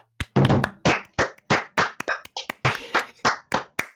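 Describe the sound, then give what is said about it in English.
Applause from a few people answering a call for a round of applause: about a dozen sharp, loud hand claps in an uneven, loose rhythm, with no voices over them. “seriously, can we get a round of applause for these people?”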